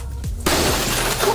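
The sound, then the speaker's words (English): Glass smashing in a rage room: a sudden loud crash breaks in after a short quiet start, then a dense, bright spray of shattering fragments continues to the end. “Oh, that was glass.”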